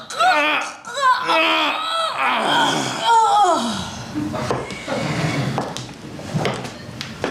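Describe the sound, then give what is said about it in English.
A violent struggle in a room, with strained gasping and vocal sounds at first, followed by scraping, knocking and clattering as furniture overturns and crashes. “Then suddenly he hears the quick movements, the furniture overturn, a crash, the violence.”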